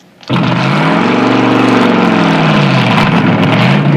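A hot rod's engine runs as the car backs out of a garage with its header plugs off. After a brief quiet start it kicks in as a loud, steady, deep rumbling roar that holds to the end.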